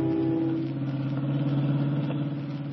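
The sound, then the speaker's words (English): Hot rod jalopy engine running as a radio drama sound effect, a steady low rumbling drone with a slight wavering rise and fall in intensity throughout. “Otherwise, why are you riding with George Flitt, detective, in his hot rod jalopy?”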